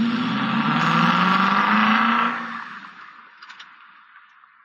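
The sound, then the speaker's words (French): A car starting and pulling away as the driver sets off: a loud, steady engine drone whose pitch climbs slowly, then drops off and fades to a quieter rumble. “Le chauffeur démarre.”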